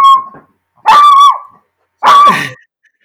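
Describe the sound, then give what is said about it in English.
A dog whines and yelps in three loud, high, drawn-out cries separated by short silences, with no talk. “is your dog okay?”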